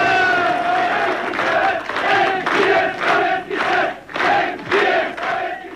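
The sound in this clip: A crowd cheers as a dignitary steps down from a train carriage, with loud, rhythmic, chant-like shouts repeating in evenly spaced bursts after one longer opening cry.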